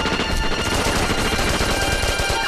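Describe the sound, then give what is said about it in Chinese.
Machine guns fire during a battle in a dense, unbroken barrage of rapid shots that stays loud and steady throughout. “从枪声判断，二连他们正想冲过来。”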